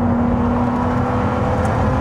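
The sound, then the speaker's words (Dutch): A Ferrari 296 Speciale sports car's engine gives a loud, continuous droning hum with a steady low tone throughout, holding an even level with no clear revving and no voices. “Maar eerst de rijimpressie. Wouter test de Ferrari 296 Speciale.”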